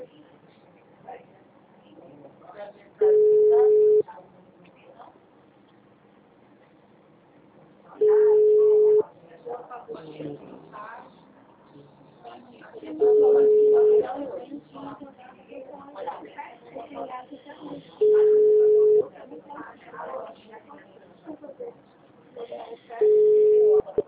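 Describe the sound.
A telephone call being dialed again, with a ringing tone: five evenly spaced, steady tones about a second long, roughly five seconds apart, with faint muffled sounds in the gaps.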